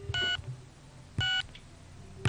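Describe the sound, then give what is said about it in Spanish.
Touch-tone telephone keypad tones, each key pressed giving a short bright beep. A few evenly spaced beeps stand alone over a quiet background, the last one cut off at the end. “Por eso se llama Dual Tone Multifrequency.”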